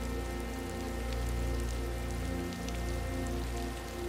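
Steady rain falling on a surface in a garden with fish, a continuous even hiss dotted with soft droplet ticks, with faint sustained low tones underneath.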